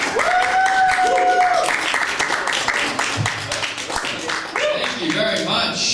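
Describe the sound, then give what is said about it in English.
Audience applause at a comedy show as a comedian is welcomed to the stage, a steady wash of clapping that runs the whole time while a host's voice talks over it. “Put your hands together and welcome to the stage”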